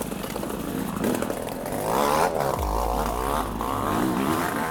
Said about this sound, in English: I'm not even sure if this bike will make it.